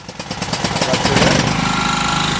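A power generator starts up at a home during a power cut in Libreville, Gabon. It gives a loud, steady engine rumble with a rapid, regular pulsing beat throughout.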